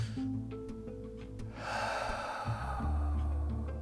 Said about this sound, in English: deep breaths are amazing for the body. We're going to take one more. Just one more.